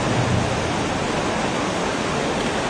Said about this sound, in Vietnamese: Hiện nay trời đang mưa to gió bắc nhiệt đới, những cái tiếng mưa nặng hạt trên các mái con tạo ra những âm vang không.